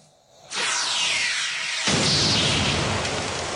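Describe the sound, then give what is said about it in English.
A sci-fi sound effect of a rock exploding on an alien world bursts in as a sudden, loud roar of hissing noise, then surges heavier midway and holds as a dense, rumbling wash until the end, with no voices. “Rock explodes for no reason.”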